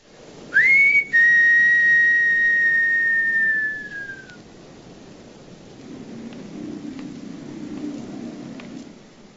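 A man whistles on a windy street in a film scene: a short note, a brief break, then one long, steady, high tone that sags slightly in pitch as it fades, followed by a soft, low rushing noise.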